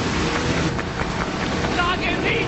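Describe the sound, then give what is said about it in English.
Speedboats race on the Magdalena River in dense jungle, with a loud, continuous motor roar mixed with rushing wind noise throughout. “As Gordy's boat speeds along, another boat approaches from behind.”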